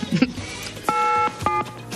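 Telephone number being dialed on a keypad: two clean electronic dual-tone beeps, each held briefly and separated by a short gap, heard over faint background noise.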